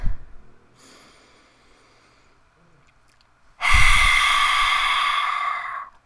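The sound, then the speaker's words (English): A slow exhale through a wide-open mouth with the tongue stuck out makes a loud, hoarse rush of breath lasting about two seconds and easing off at the end. A much fainter breath comes before it. “You stick out your tongue and you like breathe. Like, you breathe it out, and you want to exhale slowly.”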